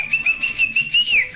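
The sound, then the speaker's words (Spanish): A person whistles a short, high, bright tune in several quick pulsing notes, ending in a falling glide, amid a festive cheer. “Hay que chiflar también.”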